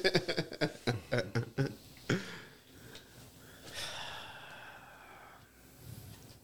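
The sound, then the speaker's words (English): A man imitates a rapper's breathing from a diss track, forcing out a quick, rhythmic run of sharp, loud breaths, followed by quieter breathy sounds. “That's how Drake breathed on that diss.”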